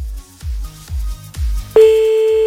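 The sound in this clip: A telephone dials a call back: a series of low, evenly spaced thumps, then a loud steady tone that holds to the end.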